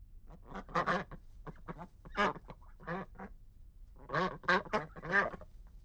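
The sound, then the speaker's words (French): Duck quacking in many rapid, nasal, honking calls. One run of calls is followed by a short pause and then a second loud cluster. No voices are heard. “Qu'est-ce que c'est? C'est le canard.”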